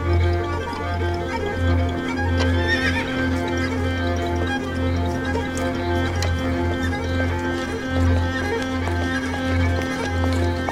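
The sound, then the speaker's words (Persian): A horse neighs at a horseback riding area, with brief whinnying over a steady low hum that continues throughout. “حاتم پیاده میشه. با مارال میرن سمت محل اسب سواری.”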